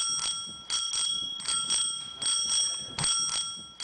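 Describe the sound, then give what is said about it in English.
A small bell rings repeatedly in bright, high-pitched metallic strikes, each ring leaving a sustained shimmering tone that fades before the next, with no talk over it. “they are turning the sound of the bell of freedom from that to this”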